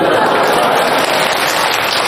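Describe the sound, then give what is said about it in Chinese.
A crosstalk comedy audience at a Tianjin theater claps steadily throughout, giving a loud, even, rain-like wash of applause. “这要掌声啊！ 哎，感谢您的掌声鼓励吧。”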